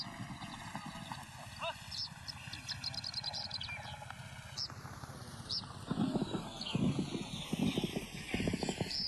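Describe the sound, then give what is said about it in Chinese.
Hoofbeats of a horse galloping past a yurt on the Mongolian steppe during the horse-herding season, a rapid run of thuds that grows louder in the second half, with a horse whinnying. “蒙古包前一骑飞驰，发生什么事了？”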